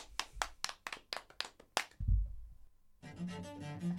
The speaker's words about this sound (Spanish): Aplausos.